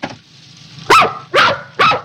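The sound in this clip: A grumpy dog barks three times, loud sharp barks evenly spaced, with no voices.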